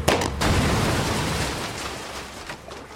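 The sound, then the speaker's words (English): Gunfire and an explosion on a lake, fired toward a boat: sharp loud bursts at the start, then a long roaring rumble that slowly fades away. “I reached down, grabbed the bad guy's gun, aimed, and fired.”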